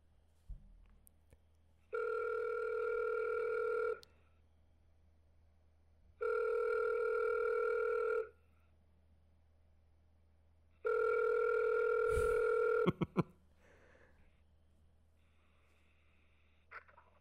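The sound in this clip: Ringback tones sound while a phone call is placed, three steady buzzing rings of about two seconds each with gaps between, followed by a few sharp clicks.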